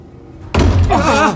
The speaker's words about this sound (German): Welche Tür war das?